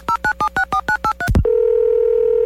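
Telephone touch-tone dialing: a quick, even series of about eight dual-pitched beeps, then a brief low thump and a steady continuous line tone that holds to the end.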